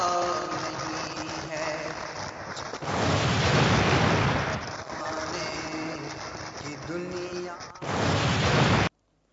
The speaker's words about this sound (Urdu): یہ بھی آتش بازی کے ذریعے خوفناک حادثات تھے. اور ایک ویڈیو ہمارے پاس موجود ہے کہ وہ ایک بلون ٹائپ کا جو ہے اس میں لوگ کچھ سوار بھی ہیں اور آتش بازی کر رہے ہیں